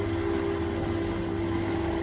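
B-17 Flying Fortress bomber engines warming up before a raid make a steady, loud droning roar with a low rumble and a constant hum, unbroken throughout and with no voices.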